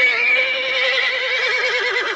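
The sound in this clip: A horse whinnies in one long, loud, quavering call, its pitch wavering throughout the neigh, with no voices over it.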